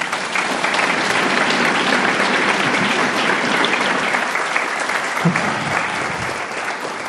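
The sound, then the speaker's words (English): Audience applause at a group meeting after a speaker finishes, a dense, steady wash of many hands clapping that stays loud and even throughout without a break. “Yay, let's give Peter another hand.”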